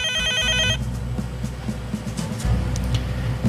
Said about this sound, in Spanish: Tenemos una llamada en la línea.